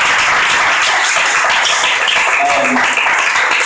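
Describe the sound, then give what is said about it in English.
Steady, dense applause from an audience at the close of a live panel conversation, holding an even, fairly loud level from start to finish. “let's give a round of applause for our conversation.”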